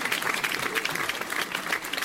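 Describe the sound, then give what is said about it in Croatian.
Thunderous audience applause at the National Theatre of Republika Srpska in Banja Luka, closing the 19th Teatar Fest. The clapping is thick and continuous, a steady wash of many hands at an even level. “Posjetioci Narodnog pozorišta Republike Srpske gromoglasnim aplauzom ispratili su 19. Teatar Fest.”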